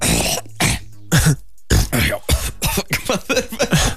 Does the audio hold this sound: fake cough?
yes